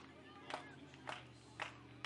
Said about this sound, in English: Stateliners fans clapping along.